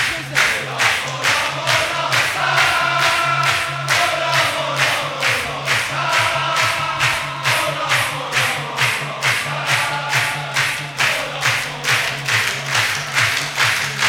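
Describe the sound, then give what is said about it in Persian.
A crowd claps in a steady rhythmic beat at a Ramadan night celebration, many even claps with voices chanting along throughout. “وسطیه چرا دست نمیزنن؟ مگه افطار چی خوردی آخه؟ دست بزن، دست بزن.”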